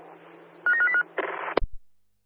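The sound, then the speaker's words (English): A telephone rings with a short trilling burst of three pulses, then a harsh buzzing tone and a sharp clunk, followed by silence. “Who's on the phone? We haven't found any phone on the last two doors.”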